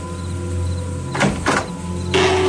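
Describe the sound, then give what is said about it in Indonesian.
A door opening: a few short, rough scraping bursts over a steady low hum, the last one longer and fuller. “Aku pun menunggu hingga pintu itu terbuka.”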